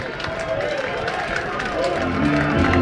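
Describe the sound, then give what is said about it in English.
Loud cheering and crowd noise from the first-base dugout at a Michigan State college baseball game in the Big Ten tournament, with the bases loaded and a full count. The dense, steady roar swells louder toward the end. “Spartans first base dugout as loud as it's been all weekend.”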